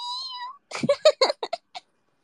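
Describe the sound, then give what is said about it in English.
An annoyed cat meowing: one long, drawn-out whining meow, then after a short pause a quick string of several short, choppy meow calls, loud and alone. “It's the annoyed meow. Why you not feed me?”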